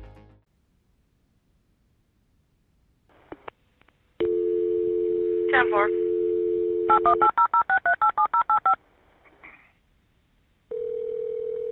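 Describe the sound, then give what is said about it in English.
Telephone dial tone and keypad dialing as a dispatcher in Fort Scott calls an air ambulance company: a steady tone, then a quick run of short, evenly spaced keypad beeps, then another steady tone. “While the EMS crew work on Robert, a dispatcher in Fort Scott dials an air ambulance company.”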